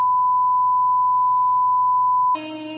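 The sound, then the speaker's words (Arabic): A censor beep effect rings out as a steady, pure high-pitched tone for over two seconds above a low hum, then switches abruptly to a brighter, buzzier tone. “هذا اسمه البيب من السنسر وفي بيبات كثيرة يعني في أشكال كثيرة إذا مو عاجبك هذا بس هذا إحنا دائما نستخدمه في أو نسمعه في القنوات”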